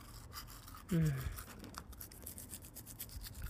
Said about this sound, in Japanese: こうやって、毎日俺が歯磨きしてあげないと虫歯になっちゃうんだよ。